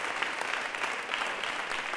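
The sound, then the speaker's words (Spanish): Church audience applauding during a worship service, with many hands clapping together in a steady, loosely rhythmic patter at moderate volume. “Démosle un aplauso al Rey.”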